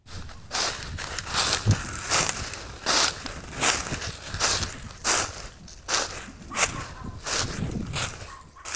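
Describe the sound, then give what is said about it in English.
Footsteps crunch over dry, crispy leaves, a steady walking rhythm of many brittle, crackling steps, each a short burst of rustle, with no voices. “walking over dry, crispy leaves reminds her of her childhood”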